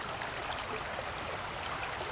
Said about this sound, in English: This is the song of the River Usk in Spate, flowing fast and deep,